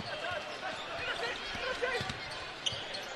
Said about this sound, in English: Dallin Hall starts it right, now veers it left on the dribble.